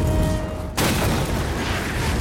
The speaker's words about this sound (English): An explosion rips through the building.